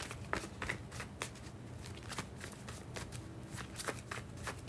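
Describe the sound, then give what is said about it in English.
Tarot cards are shuffled in a quiet, continuous run of riffling, with many small flicks and taps. “Next card out, we have the Wheel of Fortune.”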